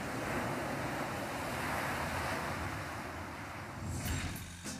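Sea waves wash onto a cold Icelandic beach at Nauthólsvík, a continuous rushing surf mixed with wind noise that swells slightly louder near the end, with no voices.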